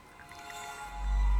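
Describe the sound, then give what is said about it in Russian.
Milk poured from a bottle into a glass filled to the brim, a short wet gurgling pour that swells steadily louder and deeper toward the end. “Джулиан придвигает к себе бутылку и снимает крышку. Наливает молоко. До краев. Наливает еще.”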